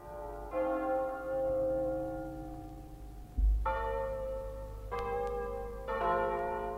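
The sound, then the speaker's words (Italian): Church bells ringing a double peal from a nearby village in the countryside. Four clear, resonant strikes sound in turn, each leaving long, sustained humming tones. “A un tratto dalla campagna, da un villaggio vicino, giunge il suono di un doppio di campane. È un suono disteso, implorante, musicale, religioso.”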